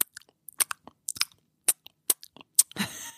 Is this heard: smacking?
yes